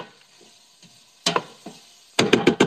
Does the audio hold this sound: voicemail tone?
no